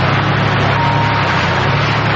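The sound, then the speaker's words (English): A car drives slowly down a mountain road with a steady low engine rumble and continuous road noise that stays even throughout. “They drive slowly down the mountain.”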